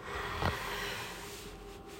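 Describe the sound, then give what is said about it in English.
A breath in with a quick sniffing burst near the start, then a steady, airy rush of breath over constant background hiss. “One, two, three. Breathe in.”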